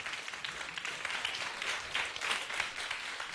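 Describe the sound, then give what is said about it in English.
Audience applause welcoming a returning university music student onto a Hong Kong stage, a dense, even patter of many hands that stays fairly faint and steady throughout. “俾啲掌聲，梁啟新。”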